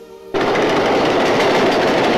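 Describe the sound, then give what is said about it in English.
An L train rattling along at dusk: a loud, dense, unbroken clattering roar that cuts in abruptly after a brief quiet moment and holds steady to the end. “The L train rattles along in the dusk.”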